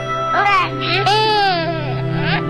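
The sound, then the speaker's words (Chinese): Baby crying after falling while learning to walk, loud high-pitched wailing bursts that rise and fall, with a steady lower hum underneath. “宝贝别哭，爸爸抱。”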